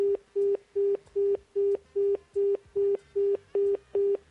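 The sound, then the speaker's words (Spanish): A telephone line tone after a call has been cut off: eleven evenly spaced, steady mid-pitched beeps in a regular on-off rhythm, heard alone. “Chuta. Bueno, se cortó la llamada telefónica.”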